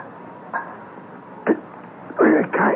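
Coughing after a strong drink is swallowed: a few harsh, throaty coughs over a faint background hiss, the last two longer and louder and coming close together.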